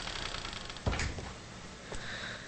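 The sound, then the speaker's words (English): A door is shut as a woman leaves a bedroom, giving one dull, low thump over steady faint hiss, with a lighter knock a moment later. “then leaves, shutting the door behind her”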